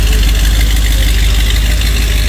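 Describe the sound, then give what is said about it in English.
Engine of a 1966 Corvette pulling out of a driveway: a loud, steady low rumble with a rough mechanical texture that holds without a break, and no voices over it. “This is what it sounded like, by the way, when he was walking, driving me out of the driveway.”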